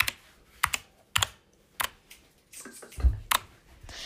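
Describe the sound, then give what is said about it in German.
Computer keyboard typing in sharp, irregular clacks, a handful of keystrokes with pauses between them, some struck in quick pairs, and no voices. “dass sie erkennen, welche Tasten ich gedrückt habe, können jetzt, warte, ich tippe nochmal”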